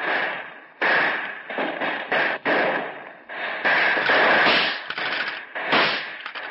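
Rifle gunfire in a shootout between gangsters and police: many loud, overlapping bursts of shots in rapid, ragged succession, with only brief gaps between volleys.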